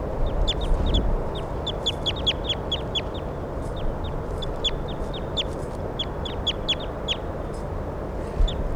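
Bird calls being recorded: many short, high chirps repeat in irregular bursts throughout over a steady low background rumble, with no voices.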